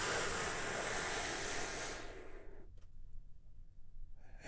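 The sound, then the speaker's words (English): A big, deep breath taken as a relaxation exercise: a long, loud, airy rush of breath that lasts about two seconds, then drops away to near quiet. “we do that by taking a big, deep, healing breath with me right now”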